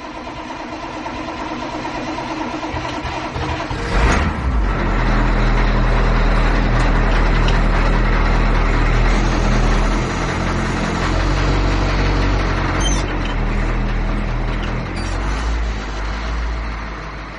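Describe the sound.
A car engine sputters and revs on a winding road with an uneven, bumpy surface. A rough burst near the start gives way to a loud, sustained mechanical roar that eases off slightly at the end.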